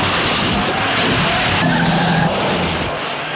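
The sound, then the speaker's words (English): Car tires skid and squeal loudly over roaring engines during a movie car chase in which cars plow through traffic. The noise is continuous and dense, with no talking. “The guards aggressively plow into other cars to make a path. Knock him out of the way! They T-bone another car, pushing it out of the way.”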